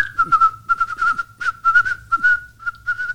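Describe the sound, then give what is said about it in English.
A person whistles a tune in imitation of a whistle being blown, a quick string of short, clipped notes at a fairly steady high pitch, bright and alone without speech. “he reaches down, he grabs the whistle again, and now he's belting out a tune.”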